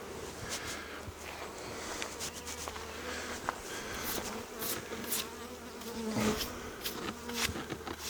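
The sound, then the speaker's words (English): Honey bees buzzing around a hive as a bee brush sweeps them off the comb: a steady, dense droning hum with scattered faint rustles and clicks throughout. “Using the bee brush, getting them off the comb. Good, they're all in the hive.”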